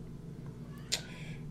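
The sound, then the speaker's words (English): A cat cries once at a door, a single short meow over a steady low hum, with a faint fading tail after it. “Mr. Martini, what are you doing? That's the cat's crying at Jen's door right now.”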